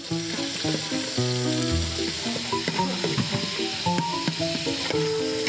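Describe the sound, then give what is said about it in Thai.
Pork stir-frying in a pan with light soy sauce and sweet dark soy sauce, a steady crackling sizzle running beneath a melodic music track. “ซีอิ๊วขาวซีอิ๊วดำหวานลงไปผัดให้เครื่องปรุงทุกอย่างเคลือบหมูครับ”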